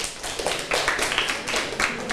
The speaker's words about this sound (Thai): เก่งมากเลยปรบมือให้เพื่อนหน่อยค่ะ